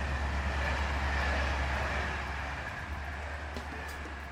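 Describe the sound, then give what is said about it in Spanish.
A night train from Limoges to Paris speeds through the Loire Valley at 161 km/h. Its steady low rumble and hum easing slightly toward the end, with no voices. “El tren nocturno de Limoges a París recorre con rapidez el Valle del Loira a 161 kilómetros por hora.”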